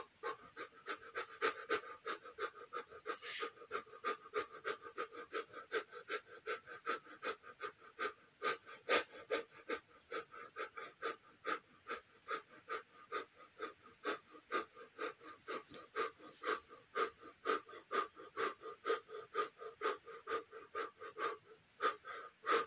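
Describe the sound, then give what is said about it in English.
Quick, rhythmic panting breaths from a breathing exercise: many sharp in-and-out puffs in a fast, steady pulse, loud and unbroken for the whole stretch with no talk. “then we'll begin with those quick breaths from now.”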